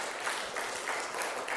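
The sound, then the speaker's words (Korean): A church audience claps in praise, a faint but steady patter of many hands that stays even and continuous throughout. “우리 하나님께 영광의 박수 올리십시다.”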